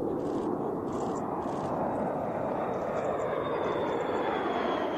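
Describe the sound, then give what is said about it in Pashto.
A nuclear-capable B-52 bomber flies over an air base in South Korea, producing a loud, steady, broad jet roar that holds evenly throughout without breaks. “بی 52 بمبار چې د اټمي وسله وړلو توان لري د اوسان هوایي اډې د پاسه په الوت کولو لیدل شوی دی.”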